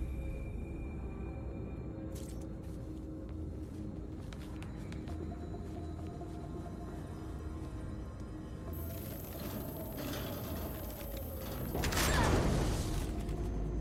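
An elevator mechanism creaks in a video game as a steady mechanical rumble with faint tonal squeals and rattling, then swells into a louder grinding burst near the end.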